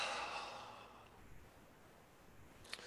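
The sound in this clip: A deep breath goes out in one slow, soft, airy exhale that starts fairly strong and fades away over about a second and a half, leaving near silence after it.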